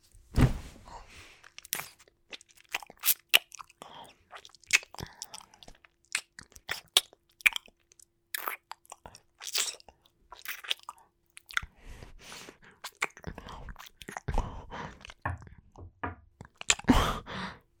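Crunchy chewing and biting of food, many irregular moist crunches and mouth sounds that come in bursts with short pauses, close and fairly clear with no talking.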